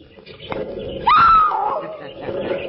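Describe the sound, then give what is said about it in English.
Caged creatures, kept behind insulated steel cabinets, let out a shrill squeal: one loud, piercing cry that jumps up sharply and then slides lower, over a low murmur. “Hear them squeal their greetings to you.”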